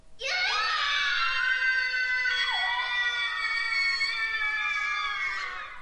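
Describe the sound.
A long, drawn-out scream in a video game, a loud, strained, high wail held steadily for over five seconds with a brief dip in pitch partway through, with no talk.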